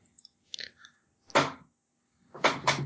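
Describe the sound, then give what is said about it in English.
An envelope packed full of cash is torn open in a video game. A few short, crisp paper crinkles and rustles come in separate quiet bursts, with the loudest near the end, and no talk is heard. “And I'm just going to open up like an envelope packed to the brim with yuans.”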